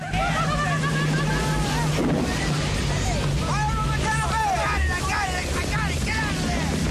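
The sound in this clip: Engine drone and wash of a passing motorboat crew on water, a steady loud rumble with wind noise, and voices shouting over it throughout.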